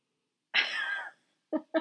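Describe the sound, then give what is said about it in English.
A dog snoring: one long, wheezy, rasping breath, then two short snorts after a pause, all fairly faint. “That noise is the dog snoring, FYI. You hear it?”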